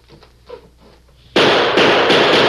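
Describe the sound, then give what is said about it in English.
A gunshot fired through a window at a house where a gang has barricaded itself breaks in suddenly after quiet low rumbling. It becomes a loud, harsh burst of broad noise that holds steady to the end. “What's the idea of shooting out the window?”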